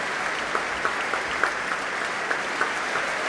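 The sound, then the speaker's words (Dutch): Applause for an orchestra's musicians as the whole orchestra stands: a steady wash of clapping from an audience, with a few sharper individual claps standing out, continuing evenly throughout. “Ja, groot applaus ook voor alle muzici nu van het orkest.”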